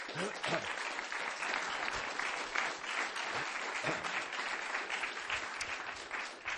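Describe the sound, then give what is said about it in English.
An audience applauds a marketing consultant after a talk on prospering in a recession. Many hands clap in a continuous, even wash that stays fairly soft from start to finish. “let's put our hands together first for Victor, please.”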